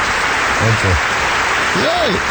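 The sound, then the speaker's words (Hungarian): An audience applauds in a dense, steady wash of clapping, with brief voices speaking over it. “Kedves népem, itt van Harag atya, aki megérdemli a hatalmas tapsot.”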